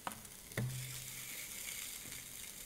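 Italian sausages sizzle in a $25 panini press, making a faint, steady frying hiss with one brief knock early on.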